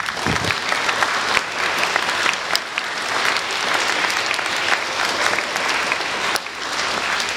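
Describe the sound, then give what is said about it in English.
An audience claps continuously for about seven seconds, a dense, even wash of applause that stays at a fairly constant level from start to finish. “Clap for yourselves.”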